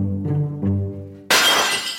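Something breaks in a rage room: a single loud burst of shattering glass cuts in after a short, low droning tone, then trails off into scattered crackling fragments.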